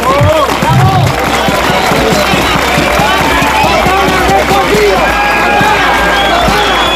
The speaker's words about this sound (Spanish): Este es el sonido de un ambiente festivo y reivindicativo que, como decimos, se vive en este momento en las calles del municipio.